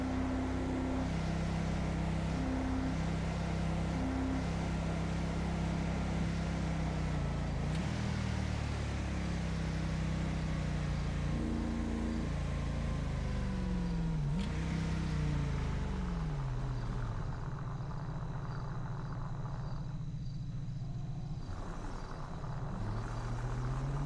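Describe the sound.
A car engine with wheels spinning in GTA V on a FiveM server, a continuous, fairly quiet drone whose pitch rises and then drops back several times, like repeated gear changes, with no voices over it.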